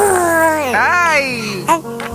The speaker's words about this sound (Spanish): Uy, volvieron los balbuceos de los bebés. Porque dicen que escuchar el balbuceo de un bebé te relaja